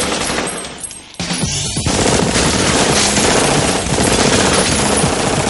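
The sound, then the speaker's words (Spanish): Submachine gun fire from two weapons shot at once in the 1999 science-fiction film The Matrix. The bursts are loud, dense and continuous, with a brief dip just after the start before the firing resumes at full intensity. “Tira el arma y saca dos metralletas con las que avanza disparando.”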